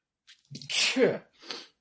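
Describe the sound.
A single loud human sneeze, a short breathy build-up bursting into a harsh, noisy explosion, followed by a softer trailing exhale.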